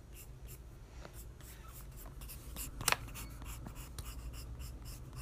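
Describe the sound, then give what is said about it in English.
Faint, scratchy strokes from sketching hair on a drawing, many short quick marks in an uneven rhythm with one sharper scrape partway through. “So now I'm gonna start sketching out the hair.”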